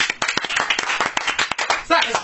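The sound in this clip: A canned applause effect on a radio show: a thin, uneven patter of quick claps with voices mixed in.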